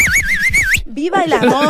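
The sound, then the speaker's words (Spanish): A person whistles loudly, a warbling tone that wavers rapidly up and down in pitch, then breaks off as voices take over. “con tu permiso voy a hacerle un silbido al estilo mal cocinado.”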